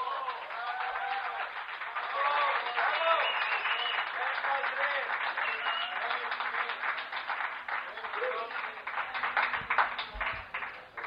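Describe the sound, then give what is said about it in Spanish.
Audience applause at a live show in Valencia featuring a noise artist makes a dense, continuous patter of clapping, steady and fairly loud for about eleven seconds, with voices calling out over it. “Mono 33, para el cual me gustaría pedir el aplauso de la noche,”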